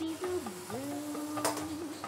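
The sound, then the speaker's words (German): Sizzling from white wine poured over lightly browning onions seasoned with salt and pepper in a pan, a steady hiss with stirring and soft tonal squeaks. “Salz, Pfeffer gebe ich noch zu den Zwiebeln schon mal. Die werden jetzt so leicht bräunlich, aber ich möchte gar nicht zu viel Farbe geben. Dann gibt es noch ein bisschen Weißwein dazu.”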